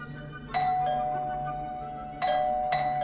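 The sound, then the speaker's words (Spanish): A house doorbell rings in two bursts of bright chiming tones, each strike ringing out and fading slowly, with a short pause between the pairs. “Era medianoche cuando masacré el timbre de la casa del pseudocirujano.”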